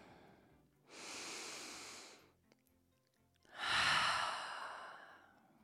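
A deep breath: one slow, airy inhale, a short pause, then a longer and slightly louder exhale that trails off gently. Both breaths are soft and alone.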